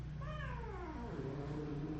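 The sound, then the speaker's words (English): A cat lets out a faint, drawn-out yowl that slides downward in pitch, part of a cat fight, over a steady low hum. “and the cat fights. Okay, keep doing that. I gotta break up this fight.”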